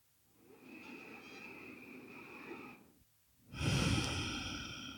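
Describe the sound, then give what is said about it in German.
Slow, deep breathing in and out, faint and airy: a long, soft, hissing breath, a short silent pause, then a second, fuller and louder breath that slowly tails off. “Dann atme tiefer ein und aus”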